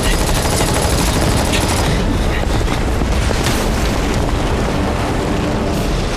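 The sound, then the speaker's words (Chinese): Machine-gun fire sounds as a dense, loud, continuous rattle mixed with heavy booms, sustained at full intensity throughout. “怎么回事？机枪怎么停了？”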